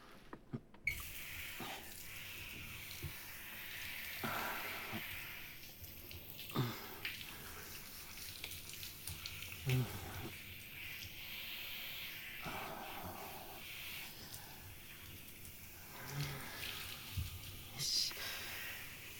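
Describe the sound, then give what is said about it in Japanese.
Water rinsing off after a shampoo: a steady, soft rushing wash that runs through the whole stretch, fairly faint and even, with brief breathy swells and small splashy bursts along the way. “じゃあそろそろ洗い流しますね。”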